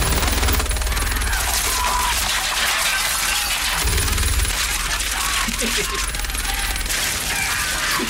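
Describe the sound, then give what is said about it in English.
A turret machine gun fires in a video game as a loud, dense, continuous rattle of rapid shots that runs the whole way through with hardly a break. “So that's the part of the game where you take over the turret gun and just throw everybody out.”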